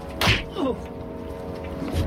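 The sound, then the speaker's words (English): A punch lands in a fight: one sharp, heavy smack near the start, followed by softer, quieter sounds. “One of the men punches Joe.”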